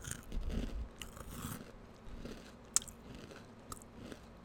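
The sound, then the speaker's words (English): Someone chews crunchy sunflower seed snack bites, making faint, irregular crunches and mouth noises with one sharp click near the end. No one speaks. “I'm currently eating somersaults, S-O-M-E-R, somersaults,”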